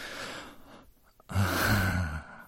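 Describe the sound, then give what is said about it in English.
Heavy panting from a blindfolded woman in a sexual breath-play scene: soft, breathy gasps, then louder, fuller breaths carrying a low voiced tone for the last second. “God, I love watching you pant like that.”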